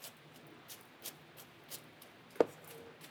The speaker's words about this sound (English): just cut these as thin as possible. This is how I'd cut green onions, okay? I cut it like that, and then I get rid of these